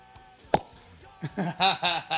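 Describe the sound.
A single sharp pop as a bottle of red wine is opened at a skatepark during aperitif time, followed by people talking.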